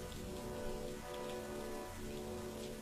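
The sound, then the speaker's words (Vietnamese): Rain pours down in a yard outside as a faint, even hiss of drops striking surfaces. It stays constant throughout with no voices. “nhìn cảnh cơn mưa đổ xuống ở ngoài sân”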